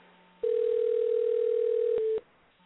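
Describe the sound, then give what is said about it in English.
Steady telephone dial tone from a line being dialed into, one unbroken mid-pitched hum lasting nearly two seconds, with a couple of sharp clicks just before it cuts off; no talk. “I actually sat there and listened to you trying to dial me”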